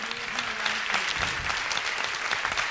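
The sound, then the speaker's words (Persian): Applause from an audience: a dense, even wash of clapping that holds steady from start to end, with no single voice standing out. “بیخیال، خودتون رو تشویق کنین.”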